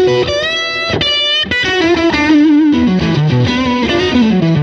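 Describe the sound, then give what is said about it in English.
A Stratocaster electric guitar is played loud through effects, giving a thick, distorted, sustaining tone. Bent and held notes ring out alone, and the line steps lower toward the end. “Just kind of has that sound, right? The Strat was a good idea.”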